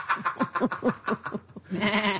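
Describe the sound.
Sheep bleating in a comedy sketch: a quick run of short, wavering bleats, then a brief pause and one longer, quavering bleat at the end.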